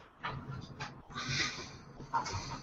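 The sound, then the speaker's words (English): A dog in a wheezing fit, giving a few faint, rasping, breathy gasps and snorts in an irregular rhythm. “Dog was actually having like some weird wheezing fit.”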